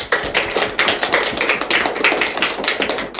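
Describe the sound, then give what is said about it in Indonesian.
An audience claps for a school performer. The sharp claps are many and fall in a fairly regular, brisk rhythm with no voices. “beri tepuk tangan untuk teman kita yang luar biasa.”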